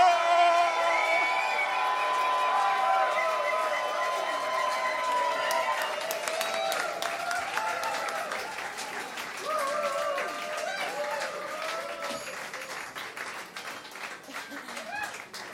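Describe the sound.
Concert audience cheering, whooping and applauding for the South African band BCUC at Salzhaus Winterthur during Afro-Pfingsten, a loud sustained wash of clapping with cheers on top that eases slightly toward the end.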